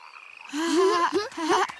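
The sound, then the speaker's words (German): Frogs croak in a few rasping, throaty bursts. Each call is harmonic and wavering, and the calls come in short, uneven succession with brief gaps between them. “Hört mal. Das da sind aber Frösche, oder?”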